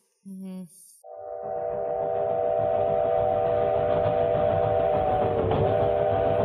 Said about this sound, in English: Well, that is a train.